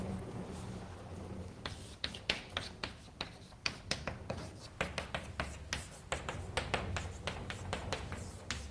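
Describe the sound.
Writing out logic formulas during a lecture: many quick, scratchy strokes and taps in an irregular rhythm, faint and unaccompanied by talk.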